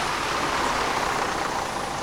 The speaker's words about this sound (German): Und da kommt ein Auto mit einem eckigen Kasten als Anhänger.